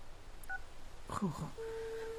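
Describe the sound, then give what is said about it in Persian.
Touch-tone dialing of a telephone number: a faint short beep, then a brief cluster of tones, and finally a steady held tone. “خب باش که نمبر مادر جان رو بگیرم.”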